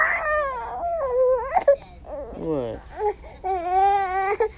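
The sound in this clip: A baby fussing and whimpering while fighting sleep: many short, wavering, moderately loud cries that rise and fall in pitch, broken by brief pauses and a few sharp catches of breath.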